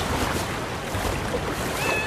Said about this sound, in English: Cat reaches out and catches hold of a branch. It climbs on, hunkering down as the water rushes past, mere inches away.